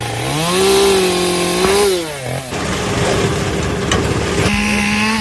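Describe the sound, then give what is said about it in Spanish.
Chainsaws and brush cutters clearing and preparing forest land: a loud, continuous engine whine that revs up and down, shifting pitch several times, with no voices. “Son las motosierras, desbrozadoras y maquinaria con las que trabajan limpiando y adecuando los montes”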